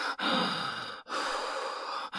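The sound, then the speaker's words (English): Panicked, heavy breathing from a frightened person: a few long, loud, airy breaths in close succession, broken only by brief catches between them, with no talking. “Okay. We have to calm down. Breathe. Breathe.”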